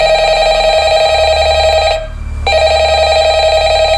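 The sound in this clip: A telephone rings loudly and steadily, its sustained buzzing ring broken by one short pause midway, with a low hum underneath; the call is placed to an office.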